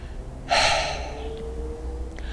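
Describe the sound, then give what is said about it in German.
A single voiceless out-breath, released in a relaxation exercise: a sudden, breathy rush of air that starts sharply and then fades away over about a second. “Du kannst einfach nur auf den Ausatmen loslassen, ohne Stimme. Das klingt dann einfach so wie ein...”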